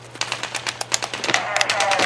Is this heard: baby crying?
no